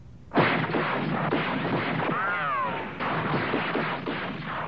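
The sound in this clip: Gunfire from a television western: a loud, noisy run of shots lasting several seconds, with a whining ricochet-like tone sweeping through the middle.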